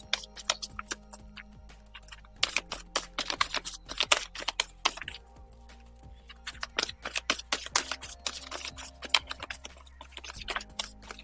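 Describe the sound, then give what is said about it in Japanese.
A deck of advice cards is shuffled and drawn by hand, with bursts of rapid, crisp papery clicks and flicks in two long runs separated by quieter pauses. “アドバイスカード引いていきます。ちょっと待ってください。”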